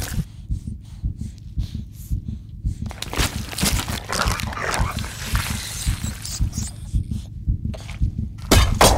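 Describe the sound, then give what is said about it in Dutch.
Fish being cut: a wet crunching, chopping sound that begins a few seconds in and continues over a steady, regular low thumping pulse like a heartbeat. No voices. “En we horen de geluiden van vis die gesneden wordt.”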